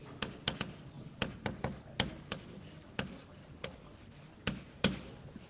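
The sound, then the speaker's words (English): Writing by hand: a faint, steady run of many small taps and scratchy strokes at an uneven rhythm, over a low background hiss. “Okay, just giving a name for it and writing it for the posterity.”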